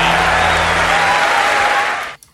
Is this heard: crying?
no